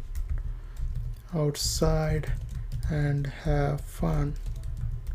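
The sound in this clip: Typing on a computer keyboard: soft, irregular key clicks run throughout, mixed with louder tonal sounds.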